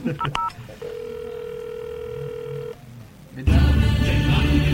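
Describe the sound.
Telephone tones for a long-distance call begin with a quick burst of dialing beeps. A steady, clear tone follows, holds for about two seconds and cuts off, and then a loud, dense sound abruptly takes over.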